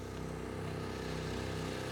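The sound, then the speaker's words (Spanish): Continuous loud droning roar of an A400M military turboprop aircraft flying during wildfire firefighting, carrying fire retardant, with a steady low throbbing engine hum and no voices. “A ellos se les suma el A-400M. Un avión militar capaz de soltar toneladas de líquido retardante para que el fuego tarde en extenderse.”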